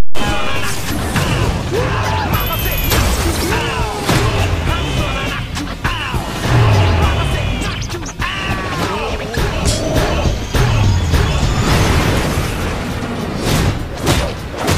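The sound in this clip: Missiles firing and exploding in a movie scene: several heavy booms and thuds, crashing impacts and whooshes over a loud, busy soundtrack, with voices talking in between.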